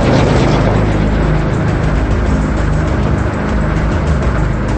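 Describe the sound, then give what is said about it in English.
A car driving away at night, with a loud, sustained engine rumble and road noise that stays steady throughout. “He drives on, his red taillights shining ominously in the darkness.”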